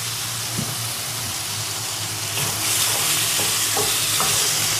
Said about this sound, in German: Ich brate es noch ein bisschen scharfer an, wa?